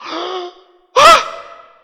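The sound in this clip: A voice imitates a gasp: a short voiced tone, then one sharp, loud, breathy intake with a tonal edge that trails off.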